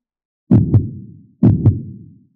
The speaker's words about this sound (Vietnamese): La Phong đột nhiên cảm giác được tim mình giống như là bị người ta đánh, nhãn thần bừng tỉnh, lúc này mới giật mình tỉnh giấc. Mình làm sao vậy? Tim như thế nào có thể đập nhanh như vậy chứ?